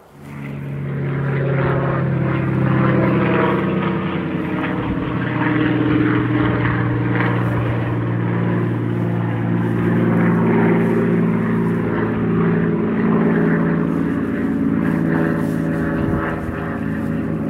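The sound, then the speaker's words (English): A Spitfire and a light aircraft flying overhead make a loud, steady propeller-engine drone. The deep, throbbing roar holds almost unbroken for the whole stretch, with no voices. “If you think that sounds like the Battle of Britain, it's because there's a light aircraft and a Spitfire.”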